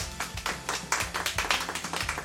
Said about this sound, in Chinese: 大家掌声谢谢绵绵吧。